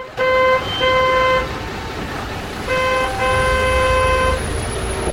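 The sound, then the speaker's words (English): Car horns honk in a traffic jam: a few long, steady blasts, some overlapping in different pitches, over a constant low rumble of idling traffic. “The road is in gridlock.”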